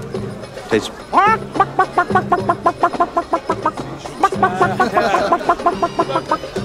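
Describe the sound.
A man imitates a chicken's clucking to show that a food tastes like chicken: a long run of quick, evenly spaced clucks continues throughout, with a couple of rising squawk-like calls early and again later, while other voices are also heard.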